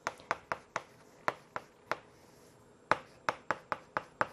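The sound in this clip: An equation being written out by hand during a maths lesson, heard as many crisp taps and strokes in a brisk rhythm, with one longer pause midway.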